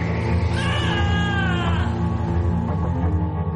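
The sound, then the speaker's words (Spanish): A person screams while driving a go-kart around a circuit, a long, high, strained cry with wavering pitch over a loud, constant low drone. “Grita.”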